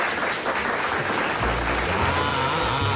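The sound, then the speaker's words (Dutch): Applause: a dense, steady patter of many clapping hands that continues evenly throughout. “Dat vind ik een applausje waard, hoor.”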